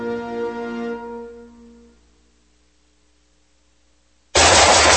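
A single loud gunshot at a shooting range bursts in abruptly near the end. Before it, a sustained tone fades to near silence.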